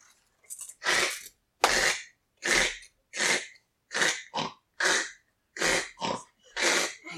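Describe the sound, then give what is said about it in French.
A human voice imitates a wild boar approaching with a rapid series of breathy, snorting grunts in short, regular bursts, loud and alone. “Quelqu'un s'approche de la moufle. Vous avez deviné, il s'agit d'un sanglier. C'est un sanglier qui s'approche de cette moufle.”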